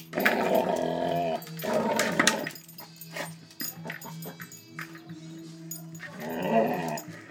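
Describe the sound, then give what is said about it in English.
A dog growls and whines in frustration at a hard plastic ball the size of a football that he cannot fit in his mouth, with a few throaty growling bursts and quieter whimpers between them. “He tries to get this big ball, like a football, but it's hard plastic. So he can't get it in his mouth. He tries to. You're getting angry with it. You're getting angry with it, boy.”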